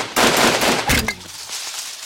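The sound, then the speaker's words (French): A volley of carbine shots fired into the air: a dense, loud crackling burst of gunfire, then a second sharp blast that fades into a softer rumbling tail. “Nous allons tirer une salve! À mon commandement, feu! Feu! Feu!”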